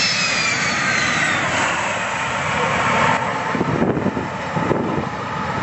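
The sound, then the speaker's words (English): A loud, continuous jet roar rushes by as an A-10 Thunderbolt II Warthog attack aircraft makes its flypast, heard alone with no voices. “There is an A10. Thunderbolt 2. And somebody very excited. Woo! Look at that warthog go.”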